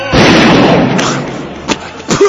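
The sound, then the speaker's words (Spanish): A gunshot goes off as one loud blast that swells into a broad roar lasting most of a second, then fades, followed by a few smaller thumps. “Cállate, ahí vas a disparar. La cuenta de dos o tres, ¿eh? A la de tres, ¿eh?”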